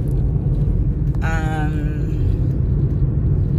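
A car on the move gives a steady low rumble of road and engine noise that drones on evenly throughout.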